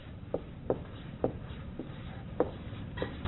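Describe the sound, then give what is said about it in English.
Writing on a board: several short, scratchy strokes come at an uneven pace, faint over a low background hum. “I'm going to write that up here. Number one, the accuser.”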